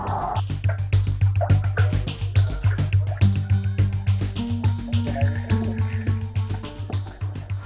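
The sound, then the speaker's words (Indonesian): Clothes are washed by hand in water, with a quick, steady run of many wet slaps, squishes and sloshing splashes over a low continuous hum. “Ini lagi nyuci baju.”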